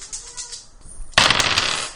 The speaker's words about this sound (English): Okay, so I'll roll four dice again.